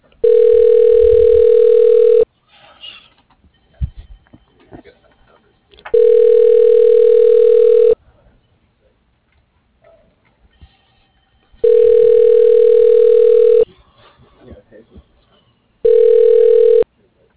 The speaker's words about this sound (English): Please hold while I transfer your call.